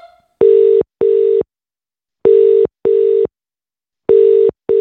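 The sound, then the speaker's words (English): A telephone ringing tone after dialing a number sounds alone: three double bursts of loud, steady electronic tone, each pair separated by a pause, with the last pair cut short. “I'm dialing the first number.”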